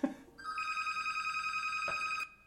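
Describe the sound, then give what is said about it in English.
A telephone rings in one electronic trilling burst of about two seconds, a bright high tone with a rapid warble, heard alone. “And there's the phone. So we'll pause.”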